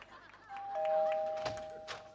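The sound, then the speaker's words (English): A doorbell at a house rings a faint two-tone ding-dong chime, the second note lower than the first, over soft background noise. “the guy rings the doorbell”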